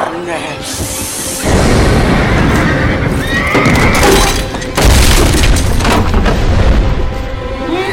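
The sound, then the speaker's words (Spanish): Restless horses neighing and whinnying in a tense film scene, their calls mixed into a dense, noisy backdrop with heavy rumbling booms that swell in loud bursts; some voices may also be present. “Uno de los caballos inquietos finalmente rompe la puerta y en su ida golpea al padre de Emily.”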